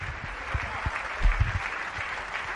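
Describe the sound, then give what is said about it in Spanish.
Stadium applause as a football player walks onto the pitch: a steady, moderately quiet patter of many clapping hands, with a few heavier thumps scattered through the brief stretch. “Pues ahí están los aplausos, una vez que está accediendo al césped.”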